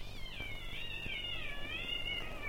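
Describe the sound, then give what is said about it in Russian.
Cats caterwaul on a house rooftop at night in March, a long, high, wavering wail that bends up and down without a break over a faint low hum. “Такие концерты происходят на крышах домов по ночам. В марте кошкам они очень нравятся.”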